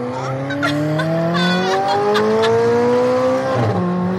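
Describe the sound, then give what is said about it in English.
A high-performance car accelerates hard, its loud engine note climbing steadily in pitch for about three and a half seconds before dipping briefly, with a hint of tire squeal and no talk over it. “So can we actually go in the car? Yeah, let's go. Ready? I very much am. Here we go.”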